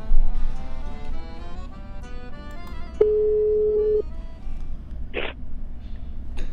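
Telephone line tone while a radio host dials a guest: a single steady, mid-pitched beep lasting about a second over a faint background.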